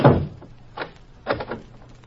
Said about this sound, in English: I lock him in. Here's the keypad.